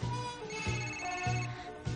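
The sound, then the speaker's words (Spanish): A telephone ringing with a repeating electronic tonal pattern that recurs roughly every half second, moderately loud and steady, with no voices. “El teléfono de Jack los interrumpe.”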